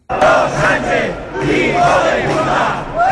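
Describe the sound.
A protest crowd chants loudly at rallies in Catalonia against the Spanish government of Pedro Sánchez. Massed voices shout in rhythmic, repeated phrases that swell and surge continuously.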